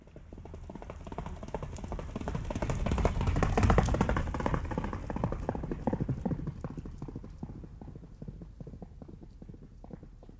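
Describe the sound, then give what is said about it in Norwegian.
Hooves of a ridden horse galloping across a farm field, recorded in 1983, pound out a rapid, even rhythm of heavy thuds. The beat grows louder toward the middle, then gradually fades. “Du har hørt kontentumet Hest I galopp fra 1983.”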